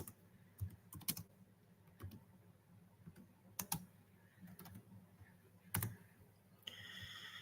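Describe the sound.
Typing on a computer keyboard: faint, irregular clusters of crisp key clicks with brief pauses between bursts, and no talk.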